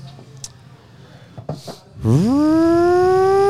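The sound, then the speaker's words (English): A voice imitates a fire whistle and a police siren. After a few faint, soft noises, a loud tone sweeps sharply upward and then holds as a steady, sustained wail. “Fire whistle. Police siren. I'm fucking good at this. I feel like a police siren.”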